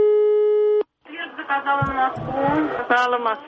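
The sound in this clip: Steady telephone line tone after dialing a number to ask for a train timetable: a loud, even, buzzing tone holds for under a second and cuts off, then a voice speaks at length.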